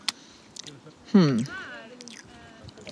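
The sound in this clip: Biting and chewing a piece of food: a sharp bite click, then soft, wet squishy chewing with a short voiced murmur in the middle and faint mouth sounds after.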